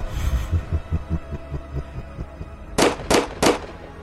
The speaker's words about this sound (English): Damn it! Stop shooting!